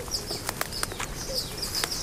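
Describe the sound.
Swallows at their nest in a ruined farmstead on a salt marsh, quick fluttering wingbeats and clicks mixed with thin, high twittering calls, fairly faint and continuous.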